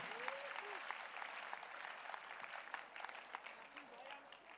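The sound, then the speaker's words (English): An audience claps hands during a church service. The clapping is dense and continuous but faint, with voices calling out over it. “Clap your hands for Jesus, somebody.”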